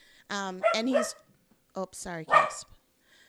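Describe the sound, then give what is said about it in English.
A dog barks a few times in two short bursts separated by a brief pause. The barks are sharp and tonal, with a yipping edge. “Sorry about the dog.”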